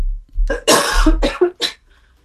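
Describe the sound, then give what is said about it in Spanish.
A person coughs in a quick cluster of a few rough, throaty bursts, loud and close together, the longest one near the start, then silence. “Perdón, aquí tengo tosecita.”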